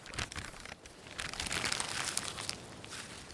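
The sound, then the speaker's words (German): Soft paper crinkling and crackling as an envelope is opened and the letter paper unfolded. The rustle runs nearly continuously, with a brief lull early on, and stays quiet throughout with no voices. “Sie sah auf den Umschlag in ihrer Hand. Und dann öffnete sie den Brief”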